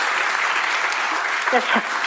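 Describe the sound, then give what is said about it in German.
A big round of audience applause on a German Schlager entertainment show, a dense, steady clatter that holds evenly throughout, with a brief voice breaking in near the end. “Und damit du mir das glaubst, kriegst du jetzt einen großen Applaus.”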